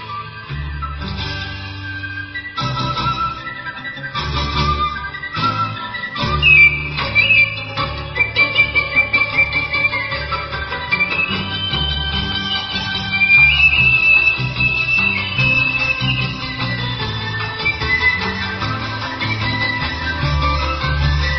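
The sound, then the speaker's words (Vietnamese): A Vietnamese bamboo flute plays a flowing melody over fuller instrumental accompaniment. The music is loud and continuous throughout, with a bright, sustained high line and a steady low backing, and no voices. “bỗng cô nghe có tiếng sáo véo von, lúc trầm lúc bổng văng vẳng bên tai”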